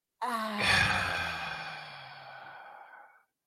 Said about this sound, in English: All right, take a deep breath in.